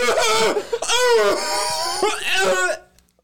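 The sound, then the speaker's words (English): A person coughing hard after a first attempt at smoking a joint: raspy, strained, voiced coughs that run together in a few loud bursts before cutting off into quiet. “He's all really coughing now.”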